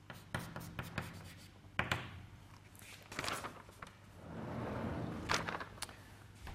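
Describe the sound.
Writing strokes as a physics equation is written out, with many scratchy strokes and sharp taps in irregular bursts and a longer rubbing stretch, mostly without talk.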